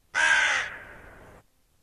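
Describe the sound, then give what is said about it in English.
A single harsh crow caw, loud at its start and tapering off over about a second before ending abruptly, heard alone against silence. “I just thought there'd be more than 1 second of crow cawing.”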